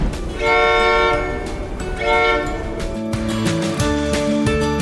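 A Rocky Mountaineer passenger train sounds its horn in two loud sustained blasts, with the steady rumble and clatter of the rail cars continuing underneath and afterward.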